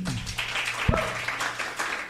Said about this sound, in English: Thanks a lot to our group. Can you give them a round of applause?